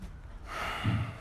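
A group of people at a memorial service take a big breath together: one soft, breathy rush of air that swells and lasts about a second, with no voices.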